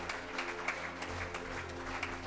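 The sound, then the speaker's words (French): A long ovation of crowd applause in a colosseum, a steady, fairly quiet patter of many hands over a low hum. “S'ensuivit une longue ovation où la ferveur se teintait de l'espoir irréel d'une liberté retrouvée.”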